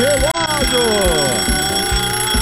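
An alarm clock rings as a wake-up call on a rural radio show. Steady high ringing tones run throughout over a regular low thumping beat.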